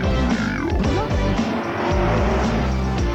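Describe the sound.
A car accelerates hard with squealing tires, its engine and screeching rubber loud and continuous throughout.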